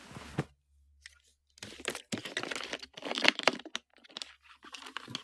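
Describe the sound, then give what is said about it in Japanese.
Crinkles and sharp cracks come from a 500 ml plastic water bottle being handled before drinking. A lone crackle is followed by a pause, then denser bursts of crumpling plastic separated by short gaps. “じゃあ今からですね、この 500ml のお水飲んでいきたいと思います。”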